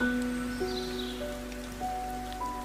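Steady rain falling, a dense, even hiss that runs throughout beneath soft sustained musical tones that shift in pitch, with no voices.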